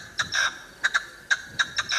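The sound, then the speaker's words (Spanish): A partridge calling with repeated short, sharp, high clucking notes, some in quick pairs and one longer note, faint and without talk. “Eso es una perdiz.”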